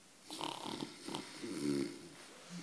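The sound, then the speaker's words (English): A man's voice imitates snoring with a few soft, raspy snorts and drawn-out breathy rumbles, faint and alone. “and he'd lie there snoring for 20 or 30 minutes”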